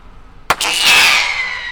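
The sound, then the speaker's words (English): A pyrotechnic bird-scaring shell, a blue, sparkling silver comet, is fired from a gun on an airport runway. A single sharp pop is followed at once by a loud, sustained, high hissing whistle that slowly eases. “So she uses pyrotechnics shot out of a gun. This one is blue with sparkles coming out the back.”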